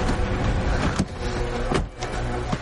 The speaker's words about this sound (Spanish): Un vehículo se acerca. El coche patrulla se detiene a unos metros de la vivienda.